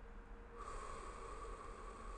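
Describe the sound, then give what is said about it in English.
Breathing in through the nose and out through the mouth during a relaxation exercise: soft, steady, airy breath noise, faint and continuous, with no talking. “Breathing in again through the nose and out through the mouth.”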